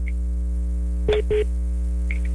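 Two short electronic tone beeps on a telephone line as a call is being connected, sounding close together over a constant low hum, with faint high blips afterward.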